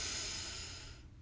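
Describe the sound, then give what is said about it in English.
A deep breath in a breathing exercise, heard as a loud, airy hiss that holds steady and then fades away after about a second. “So breathe in and out. Ah. Go deep and get all the stale air out of your lungs.”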